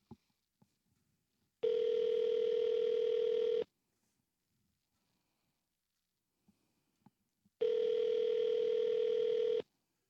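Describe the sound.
Ringback tone on an outgoing telephone call: two long, even buzzing rings of about two seconds each, separated by a long silent gap broken only by a few faint clicks.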